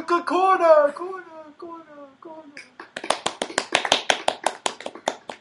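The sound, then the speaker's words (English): Hands clap in a quick run of many even beats during a karaoke session. A voice is heard first, then the claps take over alone. “You just clap for yourself. It's pretty selfish.”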